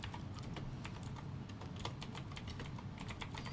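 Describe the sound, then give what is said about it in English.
Keys clatter on a computer keyboard as a search is typed, many quick, light keystrokes in an uneven run over a steady background hiss, with no voices. “look, I'm going to type in Zuckerberg gives Africa”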